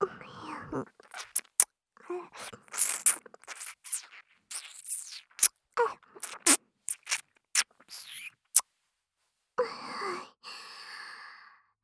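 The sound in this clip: ASMR ear licking and nibbling: many sharp, wet mouth clicks and smacks in irregular bursts, mixed with soft breathy sighs and whispering, with a short pause before a final breathy sound.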